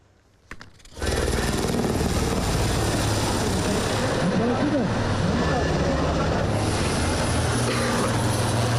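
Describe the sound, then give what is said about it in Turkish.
A helicopter roars during a search and rescue drill. After a short, quiet lead-in the loud, dense engine and rotor noise starts abruptly, then holds at a steady level to the end. “Ekipler helikopterlerle kazazedeleri kurtardı.”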